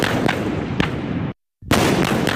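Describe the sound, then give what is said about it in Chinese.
Artillery gun crews fire live rounds in a multi-round live-fire exercise: a few sharp, loud blasts rise over a dense, continuous roar, broken by a brief cut to silence partway through. “抵达预备阵地后，各战炮班组再次对目标实施数轮多波次的火力打击，目标被悉数摧毁。”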